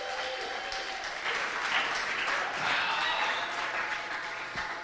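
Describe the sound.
Audience applause welcoming a speaker: dense, steady clapping that swells slightly midway and continues throughout.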